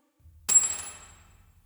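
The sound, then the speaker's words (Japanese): A dropped key hits a hard surface with one sharp metallic clink, then a bright ringing that fades over about a second, alone in near silence. “鍵ですよ。さっさと取って”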